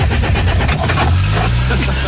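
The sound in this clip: An old engine started with a hand crank runs with a loud, continuous low rumble and a rough throbbing rhythm, steady from start to finish.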